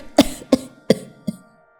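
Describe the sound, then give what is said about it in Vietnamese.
Heavy coughing from a gravely ill woman: four harsh, throaty bursts at fairly even intervals, the last one weaker than the others, with no talk between them. “Ả ho lên sù sụ”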